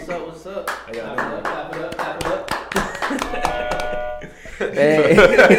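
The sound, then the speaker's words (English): Hands clapping to welcome a guest: many sharp, irregular claps scattered under people talking, with louder speech taking over near the end. “Clap it up.”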